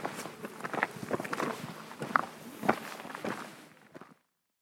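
Footsteps of people walking: many steady, faint steps that continue evenly, then stop near the end.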